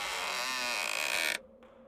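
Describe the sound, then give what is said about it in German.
A heavy crypt door creaks open in one long, loud, strained groan with a wavering, grinding texture that cuts off abruptly, leaving a faint hiss. “Mit zitternden Beinen steige ich hinunter und öffne die schwere Tür.”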